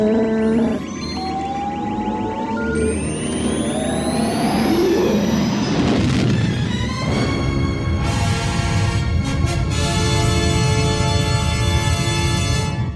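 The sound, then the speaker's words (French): Film sound effect of a spaceship jumping into hyperspace past light speed: high whistling tones sweep upward over a deep rumbling roar, which swells into a loud, dense, sustained whoosh. “Han Solo et Luke Skywalker qui franchissent la vitesse de la lumière, hein, qui rentrent dans l'hyperespace”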